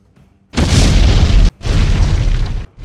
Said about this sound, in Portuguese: O outro TIE Fighter explode. Vocês só se abaixam por causa dos destroços que tá voando.